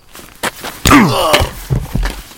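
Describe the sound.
In a German drama scene, a man is struck hard on the back of the head. A single heavy thwack cuts in, followed by a strained, pained groan, with softer knocks and shuffles around it.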